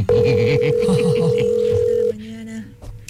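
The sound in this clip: A telephone rings unanswered, a steady electronic tone held for about two seconds before shifting to a lower, softer tone, with voices running beneath it.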